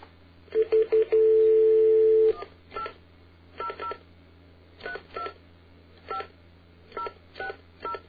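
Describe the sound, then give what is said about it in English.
Touch-tone dialing of a toll-free 800 number: a few short beeps, then one long steady tone, followed by softer intermittent bursts with the thin, band-limited quality of a phone line. “But here's what you get when you dial the regular 800 number.”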